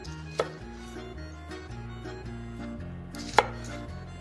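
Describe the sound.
A knife chops shallots on a board, with a couple of crisp knife strikes standing out over steady background music.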